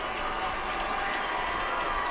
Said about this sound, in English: won't get the hat trick, has the brace, the crowd on their feet, thrilled by the youngster.